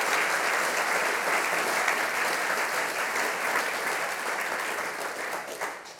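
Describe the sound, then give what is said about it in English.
Audience applause welcomes historian Henry Reynolds, a dense, steady clapping that holds at full strength for several seconds and tapers slightly toward the end. “Please put your hands together to welcome Henry Reynolds to Millennium.”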